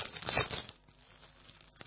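A pack is handled to pull out a small card, giving a brief crinkling, crumpling rustle at the start that then fades into near quiet.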